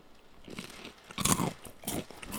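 Crunching of cinnamon corn puffs being bitten and chewed, a few crisp bites with a louder burst of crackly crunch in the middle, then more chewing, with no talking.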